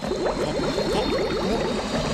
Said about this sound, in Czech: podívej, voda kolem už začíná bublat, no za chvilku se všechno vypaří